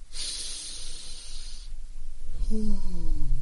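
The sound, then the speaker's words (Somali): A long, deep breath taken during a guided calming exercise comes through as a soft, airy hiss for over a second. A quieter breathy stretch follows, with a low tone underneath. “neef dheer ila qaata sidii idinkoo ursanaya ubax aad u udgoon neef dheerna sii daaya sidii idinkoo daminaya shumac”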